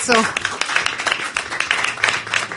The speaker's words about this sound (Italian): Grazie, un applauso. No, no, non posso farlo, c'è lì Dan Battista appoggiato al pilastro, fategli un applauso,